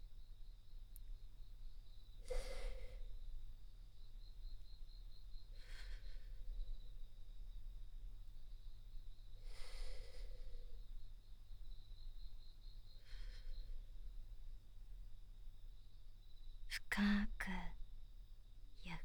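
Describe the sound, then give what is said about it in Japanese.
Slow, deep breathing comes as a few soft, airy breaths spaced several seconds apart. It is faint, over a steady low hum and a thin, constant high tone. “では、私の呼吸に合わせて呼吸してみてください。”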